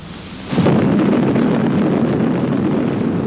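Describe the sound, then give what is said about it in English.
An atomic bomb test explosion roars in with a sudden swell over a low rumble, then holds as a loud, dense, continuous rumbling roar to the end, with no voices. “let's take a few minutes right now and get acquainted with an A-bomb. Meet Test Abel.”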